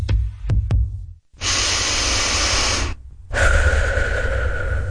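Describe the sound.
A person takes a deep breath of fresh air out in nature. A few short clicks come first, then two long, airy, hissing breaths follow one after the other, each clear and fairly loud.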